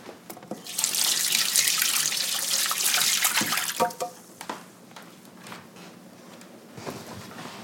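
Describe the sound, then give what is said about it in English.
Running tap water as hands covered in raw egg are washed, a steady broad splashing hiss for a few seconds that then breaks up into scattered splashes and drips. “now let me go wash my hands because they're all eggy.”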